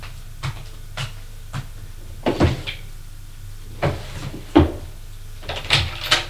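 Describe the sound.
A cupboard opened and rummaged through while someone searches for an insurance file: a series of irregular wooden knocks, thuds and clatters, some doubled, with quiet gaps between them.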